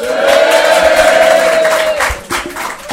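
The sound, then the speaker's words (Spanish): A packed live audience at a dancehall performance roars with loud cheering, shouting and whoops. The noise is sustained, then dips and surges again near the end. “hoy lo ha reventado aquí porque no cabe ni un alfiler con un público que hace un ruido total que así.”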